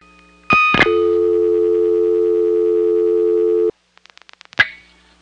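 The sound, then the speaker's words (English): Line hum on a payphone at the Atlanta airport after a dime is inserted and a digit is dialed. A steady, buzzing tone holds for about three seconds, then a quick run of faint clicks and one louder click follow. “Okay, I dialed a digit. There was no burst of dial tone at the end of the digit, and sounds like this phone line has a normal hum in the background.”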